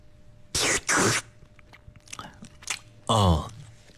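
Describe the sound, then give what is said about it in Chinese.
Chewing and tasting cooked glass noodles made from home-milled grain: two loud crunchy bites up front, scattered softer chewing clicks, then a loud voiced hum near the end. “好，接下来我再来尝一尝粉条的口感啊。”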